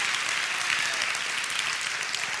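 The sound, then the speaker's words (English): A church audience claps hands in praise during a service, producing dense, steady applause that fills the whole moment with no voices. “If you believe that, give the Lord a hand clap of praise and begin to experience the freedom that only he can give you.”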